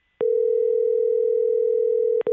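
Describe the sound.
An outgoing phone call rings: a steady, mid-pitched ringback tone holds for about two seconds, cuts off briefly, then starts again.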